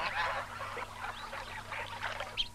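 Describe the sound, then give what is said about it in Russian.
A big flock of large white ducks swims toward the shore, quacking and honking. Many calls overlap in a busy, uneven chorus with no voices. “Белые крупные утки большой стаи подплывают к берегу.”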